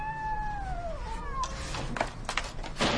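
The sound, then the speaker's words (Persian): Cats with broken legs meow in a room. One long meow slides down in pitch, followed by shorter, overlapping cries. “چند تا گربه وسط اتاقه. با پاهای شکسته که خودشون روی زمین میکشند و میو میو میکنند.”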